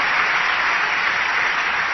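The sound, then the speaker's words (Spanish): A church audience claps for Jesus Christ during a bilingual sermon, a continuous, even patter of many hands at a steady, fairly loud level. “Dale palmas a Jesucristo en esta noche. Give the Lord a hand clap tonight.”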